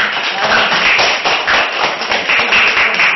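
Applause from a church audience welcoming back a returning member: many hands clapping in a dense, steady patter that stays loud and even throughout.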